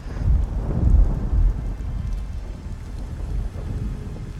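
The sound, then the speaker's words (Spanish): A thunderstorm pours rain against the window of a small room, with a dense, steady patter of drops and deep thunder rumbling loudly in the first second and a half before easing into continuous rainfall. “Las gotas de fría agua furiosas rebotaban incansables en la ventana del pequeño cuarto. Los relámpagos se sucedían uno tras otro junto con los martillantes truenos”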